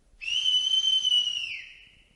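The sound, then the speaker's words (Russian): A sustained two-tone whistle, sinister in character, holds steady and loud on its own, then dips slightly in pitch and fades away at the end. “Этот свист мне не понравился. Он отдавал заговором.”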